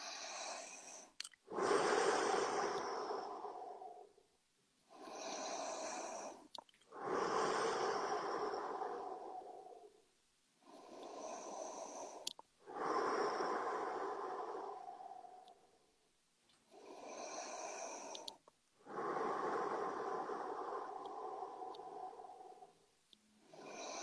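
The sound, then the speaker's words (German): Deep, slow breaths from a guided breathing exercise rise and fall in an even rhythm. Several long inhales and exhales are heard alone, each breath airy and fairly loud, with short pauses between them. “Und dann macht das jeder einfach in seinem Tempo. 30 Atemzüge.”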